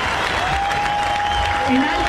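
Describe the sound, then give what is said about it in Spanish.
Audience applause at a live samba concert after the final song, dense and even clapping throughout with a faint sustained tone running beneath it. “Un aplauso al cielo.”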